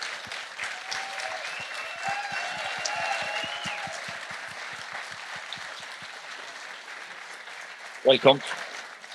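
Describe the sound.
Studio audience applause welcoming a GAA star onto a dinner-party show, a steady patter of clapping that eases off toward the end, followed by a brief voice.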